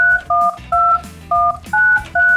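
Touch-tone DTMF beeps as a telephone number is dialed to call a radio show guest, a residential and commercial painter. Five loud, steady dual-tone beeps come in an even rhythm with short gaps between them.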